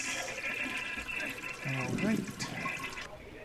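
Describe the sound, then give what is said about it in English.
Water sloshes and trickles as a cup is filled from a toilet bowl, a steady wet splashing that lasts throughout, with a voice partly over it. “Let me get a cup. All right, fill this cup up. A little toilet water makes everything nice.”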